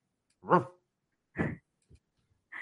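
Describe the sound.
A dog gives a few short barks or whines, each brief and separated by silence, at moderate loudness with no talk over them.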